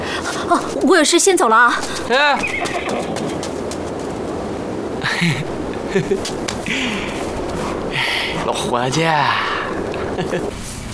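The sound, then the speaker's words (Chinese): A horse belonging to a company commander neighs in a few wavering, tremulous whinnies, one early and another near the end, amid background sounds. “爷，这不是俺们连长的马吗？ 连长的马？ 对啊，这就是俺们连长的马。”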